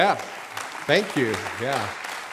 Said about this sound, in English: I don't know if you're applauding them or us, but thanks.